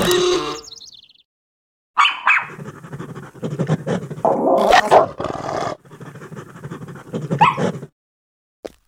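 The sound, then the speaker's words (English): A dog growling and snarling in loud, rough bursts, mixed with yips and whimpering cries, after a brief opening sound and a short silence. “Does your dog bite? No. That's not my dog.”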